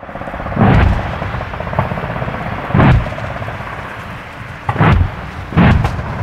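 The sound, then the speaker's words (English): Heavy explosive booms from a military live-fire exercise near Townsville, Queensland, Australia, involving Australian, American and Japanese armed forces: four loud, deep blasts and one lighter thud, separated by a steady low rumble. “That's the sound of a live fire exercise taking place near Townsville in Queensland, Australia.”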